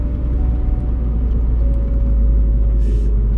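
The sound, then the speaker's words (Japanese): Steady low rumble of a car being driven, heard from the passenger seat: a dense, even drone of engine and road noise that holds constant throughout, with no talk. “運転変わってもらって僕が今助手席座って1人喋ってます”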